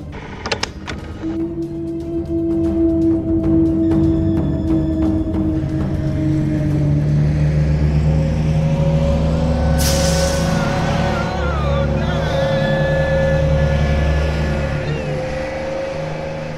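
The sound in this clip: Road traffic on a journey from Omdurman toward Halfa in Sudan: a continuous engine drone with a low rumble and a steady hum that holds through the whole clip, with no talk.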